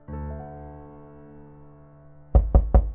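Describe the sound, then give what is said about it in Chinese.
Three quick, loud knocks on a door follow a long, steady, low humming tone that slowly fades. “一会儿有人来敲门”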